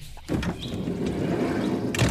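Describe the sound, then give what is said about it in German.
Door and cabin movement as someone climbs into a VW Bulli van parked in a forest: a sharp thump near the start, a steady low rumble, and another knock just before the end. “So, damit du nicht wieder ausbückst, gehen wir jetzt halt in den Bulli rein.”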